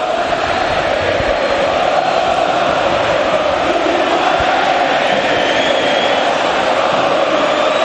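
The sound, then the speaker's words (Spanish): Massed Boca Juniors fans, more than 20,000 of them, singing in a football stadium in Rosario: a loud, continuous roar of crowd chanting with a steady sung tone running underneath. “Quiero que escuches al público de Boca, que son más de 20.000 y están en Rosario.”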